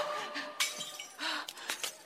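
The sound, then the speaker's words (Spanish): A wine glass breaking as it is stepped on, heard as several sharp, faint crunching and tinkling glass crackles spread across the moment over a soft background hiss. “Ella pisa una copa, se lastima los pies.”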